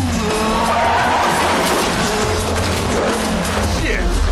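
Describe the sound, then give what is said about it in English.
A car skids during a motorcycle chase, a loud, sustained screech of tires blended with a roaring engine and dense noise that runs unbroken through the whole clip. “So they had a motorcycle chase in here, you know. So then it's another motorcycle person who's stupid enough to think that they can take on a car.”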